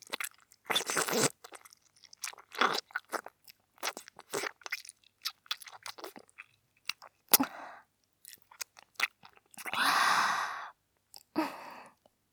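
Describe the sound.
Gulping down a drink: many short, wet mouth and throat sounds in an uneven series, with a long breathy exhale partway through, and no talking.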